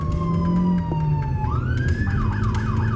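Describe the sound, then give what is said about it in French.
A siren wails from a black-and-white Dodge police car of the Sacramento police speeding with lights on. The steady tone climbs, then breaks into a rapid, repeating rising-and-falling yelp over a low rumble. “Dans sa Dodge noire et blanche, siglée Police de Sacramento, Shelby appuie sur l'accélérateur, gyrophare allumé.”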